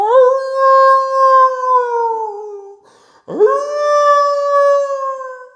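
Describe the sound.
Two long wolf howls, used as a sound effect. The first holds a clear, steady tone and slowly falls in pitch. After a short gap, the second sweeps upward at its start, then holds steady and loud until the end.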